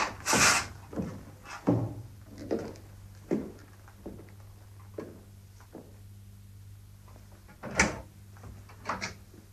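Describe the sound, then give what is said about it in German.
A wooden drawer is handled and pushed shut, giving a few soft knocks, clatters and scrapes at an irregular pace, all quiet. “Helfen Sie mir, das wieder in die Schublade zu tun.”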